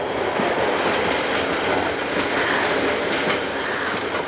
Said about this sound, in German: Dann warte ich, bis der Zug die Brücke passiert.